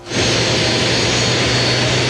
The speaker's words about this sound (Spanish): Bio Bio TV da cuenta de este jet privado de la República de Panamá, porque hace instantes acaba de aterrizar acá en la losa de la terminal